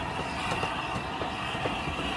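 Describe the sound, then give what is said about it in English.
A train with a line of mostly maroon carriages rumbles past near the Flying Scotsman, a steady, dense, broad rumble that stays even throughout. “Ryan makes his way back to the Flying Scotsman as the other train's line of mostly maroon carriages rumbles past.”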